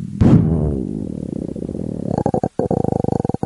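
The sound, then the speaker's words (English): A voice imitates a mountain lion's roar: a sudden loud, raspy outburst that drags into a long, low, pulsing growl, with a short break near the end. “and you turn around, and it's a fucking mountain lion, and you get murdered by a mountain lion.”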